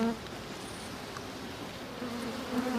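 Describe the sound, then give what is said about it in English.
Bees buzz from a hive that has been split open and smoked. A faint, continuous droning hum holds steady throughout with no clear breaks. “And then I'm smoking the bees away from the split and I lift it up and look in.”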